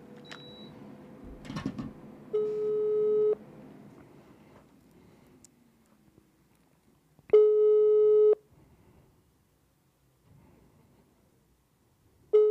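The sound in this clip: Telephone ringback tone from an unanswered call: two steady, buzzing tones of about a second each, separated by long silences, with a third tone starting at the end. Faint background noise fills the gaps.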